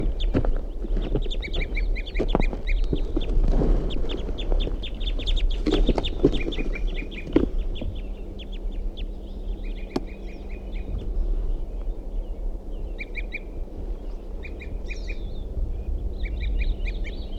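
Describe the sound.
A male and female bird back at their nest give many short, high chipping calls in rapid repeated bursts, fairly faint over a steady low hum.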